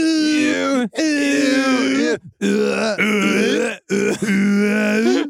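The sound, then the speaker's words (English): French sex noises from an adult video: a voice makes four long, drawn-out, strained moans and groans, separated by brief pauses. “Yep, that's French sex noises. Yeah, they all make the same noises.”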